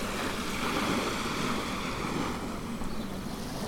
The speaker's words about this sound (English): I'm on the beach at Combe Martin.